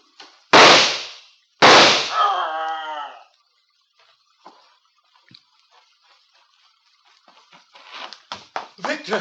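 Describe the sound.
Two loud, sharp gunshots fired at a creature in a horror drama scene, about a second apart. Faint scattered rustles follow, then a run of quick clustered sounds near the end.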